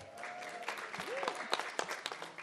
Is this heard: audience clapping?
yes